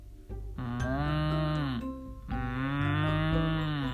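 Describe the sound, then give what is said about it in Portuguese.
A calf moos twice: two long, loud, drawn-out moos with a strong tonal, wavering pitch, the second lasting a little longer than the first. “Então, reencontrou-se com o bezerro.”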